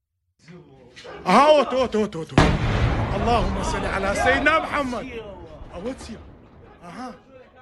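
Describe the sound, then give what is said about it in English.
A missile barrage strikes near a U.S. consulate complex in the Kurdish region of northern Iraq: a sudden loud blast cuts through shouting voices, followed by sustained rumbling noise as people keep talking and calling out. “Iran is openly firing missiles into this area. And they are targeting places where American consulates are. Here is a little bit of the video.”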